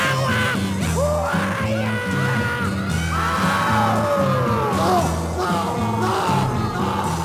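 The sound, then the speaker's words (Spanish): A person lets out repeated drawn-out yells and whoops, wavering in pitch, over a steady bass-heavy rock track that pulses throughout. “¿Quién está gritando ahí?”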